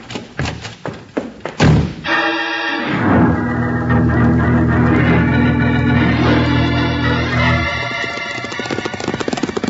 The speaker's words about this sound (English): Bill, that shot wasn't meant for us. No, it sounded like it.